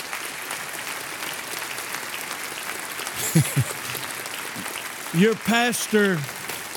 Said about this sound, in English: Will you now join me in giving Dr. Hawkins and Susie the warmest welcome that apostles can give anyone?